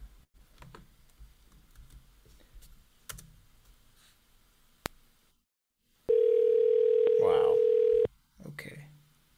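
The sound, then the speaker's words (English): A phone number is dialed from a computer: scattered soft keyboard clicks, then a loud, steady telephone tone held for about two seconds, with a voice speaking briefly at the end. “Okay, I'm gonna have to dial it from both numbers.”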